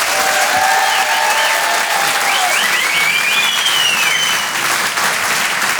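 A comedy club audience applauds a comedian with steady, loud, dense clapping, and a few whistles and cheers rise above it.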